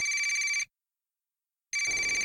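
A telephone ringing: two bright, steady buzzing ring bursts separated by a silent pause of about a second.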